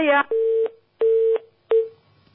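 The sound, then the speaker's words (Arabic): Disconnect tone from a dropped phone call on a call-in line: three steady, mid-pitched beeps separated by short silent gaps, preceded by a brief buzzy harmonic burst. “واضح أن انقطع الاتصال.”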